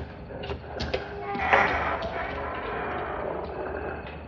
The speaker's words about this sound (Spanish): La chica sale cerrando la puerta con cuidado.